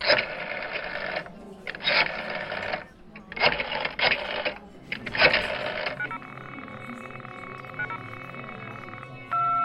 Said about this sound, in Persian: بوغ ممتد میزد چند دقیقه دیگه دوباره تلاش کردم ولی فایده ای نداشت انگار اون شماره به کل قطع شده بود